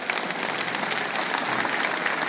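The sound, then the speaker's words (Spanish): Loud audience applause during a church service, many people clapping together in a thick, continuous patter that holds steady throughout without talk. “Si Dios le habló, dele un aplauso al Señor.”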